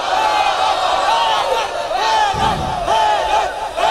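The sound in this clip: A large crowd chants a religious slogan said to have first been raised by Ali ibn Abi Talib. Loud massed voices repeat the shout in rhythmic surges across four seconds.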